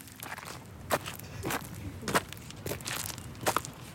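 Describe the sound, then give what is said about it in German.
Footsteps walking along a path between greenhouses: several soft, crunchy steps at an easy walking pace, fairly faint and even. “Jetzt laufen wir hier zwischen den Gewächshäusern entlang.”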